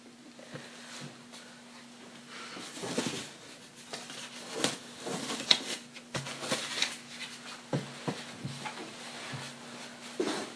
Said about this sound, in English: Now I'm throwing away some business cards that I don't need.